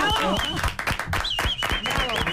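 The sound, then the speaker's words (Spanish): Applause from a crowd: dense, steady clapping fills the whole clip, with voices talking over it. “Un aplauso, por favor.”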